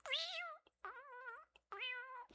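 A cat meows three times, each call drawn out, high and tonal with a slight wavering pitch, separated by short pauses and heard alone.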